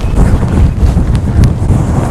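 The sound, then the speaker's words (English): Wind gusting hard against the microphone outdoors, strong enough to shake a camera: a loud, continuous low rumbling roar with uneven buffeting throughout and no voices. “but it's the wind. It's the wind that's the problem, because everything shakes.”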